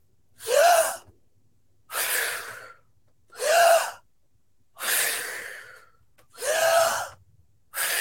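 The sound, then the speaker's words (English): Three deep breaths in a breath-work exercise, heard as six loud breath sounds in an even rhythm. Sharp, gasping inhales alternate with longer, airy exhales, each separated by a short silence, with no talk. “So I'll do this all the way through real quick. Okay, so three breaths.”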